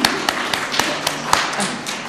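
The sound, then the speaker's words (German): An audience clapping, heard as a few sharp, separate hand claps landing in a fairly even rhythm over a low murmur. The claps are not a dense ovation. “Oh, wir klatschen auch mal für die.”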